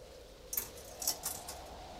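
Coins drop into a payphone with a few faint, bright metallic clinks spaced irregularly over two seconds, quiet and alone with no talk.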